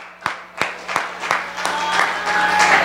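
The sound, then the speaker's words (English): A church audience claps along during a night worship service. A few separate, evenly spaced claps quickly swell into steady, dense clapping mixed with crowd noise. “Clap your hands.”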